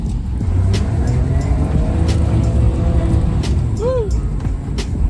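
A car engine runs in snowy cold, giving a low, steady, rumbling drone. A few sharp clicks and a short high-pitched squeak sound near the end.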